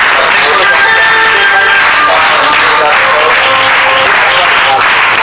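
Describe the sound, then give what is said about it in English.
Audience applause welcoming a missionary and evangelist at a religious gathering, with loud, dense clapping running continuously throughout and a voice faintly heard over it. “As you're standing. Let us join our hands together and welcome missionary and”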